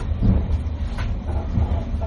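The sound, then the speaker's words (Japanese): A sleeper limited express train is running, heard as a steady, loud, low rumbling drone that holds evenly throughout without distinct clacks or breaks. “寝台特急の那覇号西鹿児島行きです。”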